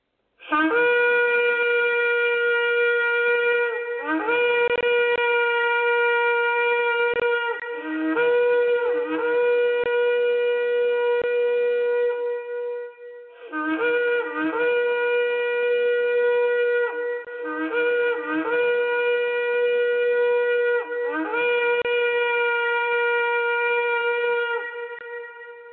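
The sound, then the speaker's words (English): A shofar, a ram's horn trumpet, sounds a series of long, loud, brassy blasts. Each holds a steady buzzing tone, with short breaks and brief pitch wobbles between blasts, and no talk. “Here's the sound of the shofar,”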